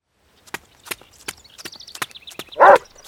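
A dog gives one short, loud bark near the end, preceded by a quick series of tapping, step-like sounds and a string of high warbling chirps.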